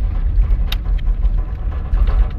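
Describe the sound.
Vehicle driving down a dirt road with loose running boards flopping around in the back, giving a steady, loud low rumble throughout with a few faint rattles and no voices.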